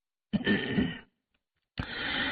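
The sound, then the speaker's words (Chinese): A single light cough comes as two breathy, rough bursts separated by a short silent pause. There is no talk around it. “马齐轻咳了一声”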